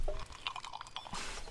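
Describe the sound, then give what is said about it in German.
Gulping cold, fizzy lemonade: a few wet swallows and liquid gurgles, ending in a brief fizzing hiss, all quiet with no talk. “Ich jedenfalls gönne mir jetzt einen tiefen Schluck kalter, prickelnder Limonade.”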